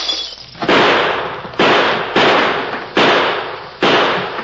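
Gunfire from rifles and six-guns in a radio drama shootout: five loud, sharp bursts at uneven intervals, each a broad crack that trails off in a long, decaying rumble.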